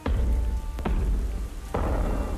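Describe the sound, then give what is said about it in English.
Rain falls in a steady, dense hiss during a thunderstorm, broken by two sudden louder bursts like thunder cracks over the continuous downpour. “One evening, a terrible storm came.”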